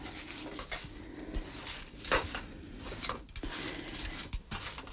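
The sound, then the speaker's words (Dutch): Crumble topping is mixed in a bowl with irregular scratchy scraping and clinking strokes of a utensil, punctuated by a few sharper knocks; no one speaks. “Dus ik meng hier voort de crumble.”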